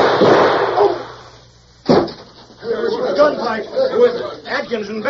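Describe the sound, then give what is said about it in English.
A single sharp, loud gunshot from a radio drama gunfight. It cracks out after a voice fades, and several people talk afterwards. “The minute I walked out here, Bennett pulled a gun on me. I had to shoot in self-defense.”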